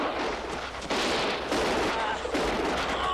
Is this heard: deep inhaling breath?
no